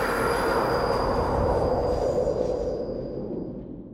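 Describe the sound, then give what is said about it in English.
A subway train approaches with a very loud, steady roar of wheels on rails. A thin, high metallic squeal runs above the rumble, and the whole din eases slightly toward the end. “everybody just sort of like stands there and endures the sound of the subway approaching, which it's well over 100 decibels”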